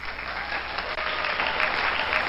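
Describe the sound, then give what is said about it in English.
Applause at an online event, heard through a headset as a dense, rushing wash of clapping that holds steady and fairly faint for a couple of seconds, without distinct individual claps. “it's awesome to get the double big applause, but by the way, it almost sounds like a toilet bowl flush in my headset.”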